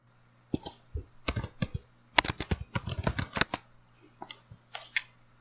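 Typing on a keyboard to look something up, faint quick clicks that come in uneven bursts, with a dense run of keystrokes in the middle and sparser taps toward the end; no talk.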